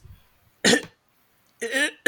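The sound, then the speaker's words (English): Deliberate coughing as if choking on a piece of sausage stuck in the throat: two loud, harsh bursts separated by a pause, the second longer and rougher, with another cough just starting at the end. “as I'm choking on that, I like cough it up”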